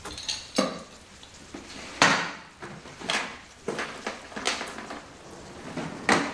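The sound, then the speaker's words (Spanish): Rummaging through kitchen drawers while searching, with many sharp, irregular clatters of cutlery and knocks of wood and cupboard fittings, loud and uneven, with no talk. “Busca en los cajones.”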